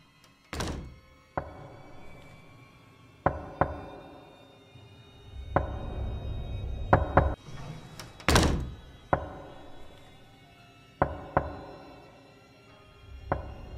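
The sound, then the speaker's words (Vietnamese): Knocking on a wooden door board at night: many hollow, loud thunks in irregular pairs and singles, each sharp and quickly fading, with no voices. “Tay dài loằng ngoằng, nó đưa tay gõ gõ cộng cộc vào tấm ván gỗ cửa.”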